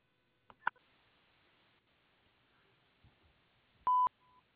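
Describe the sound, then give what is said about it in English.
A voicemail tone on a real estate agent's phone line: a single short, loud electronic beep near the end, preceded by a few faint clicks over quiet line hiss. “Please leave me a message at the sound of the tone, and I will get back to you as soon as possible.”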